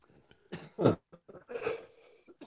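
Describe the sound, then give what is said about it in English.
Coughing from pollen stuck in the throat: a few short, rough coughs mixed with throat clearing, fairly faint and separated by brief breaths. “I picked up a lot of pollen down at Croatan, and it's still in my throat.”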